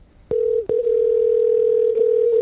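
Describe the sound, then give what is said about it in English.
Telephone dialing a call: a few sharp clicks on the line, then a loud, steady, unbroken mid-pitched dial tone holding to the end. “Dial the first one up.”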